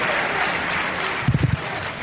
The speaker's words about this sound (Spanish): Aplaudidme más.